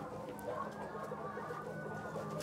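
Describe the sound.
Hen clucking in a henhouse during a health check, a steady, busy run of overlapping clucks at an even level with no voices.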